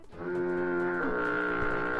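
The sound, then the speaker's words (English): A foghorn sounds one steady, low blast rich in harmonics, held for about two seconds with a slight waver midway and no voices over it. “It was actually just the foghorn. The foghorn called.”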